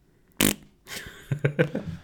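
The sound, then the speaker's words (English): A fart: one sharp, loud blast, then after a short pause a sputtering run of several shorter, rattling pops that trail off. “I think that was the dog. And I start cracking up because Chanel farts, but not like that.”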